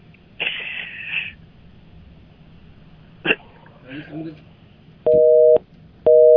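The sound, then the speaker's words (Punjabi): Busy tone on a phone call after the line drops: two loud, steady, flat electronic tone bursts separated by a short gap, the second cut off at the end. Brief scratchy line noises come before them. “Line drop ਹੋ ਗਈ ਜੀ, line drop ਹੋ ਗਈ ਉਹਨਾਂ ਦੀ”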